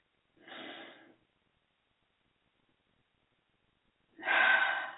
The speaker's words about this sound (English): we can begin doing this by taking a deep breath.